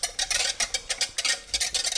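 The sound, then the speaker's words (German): Ingredients being stirred in a measuring jug, producing many quick, regular scraping strokes in a steady rhythm. “Jetzt haben wir alles im Messbecher drin. Und verrühre die Zutaten.”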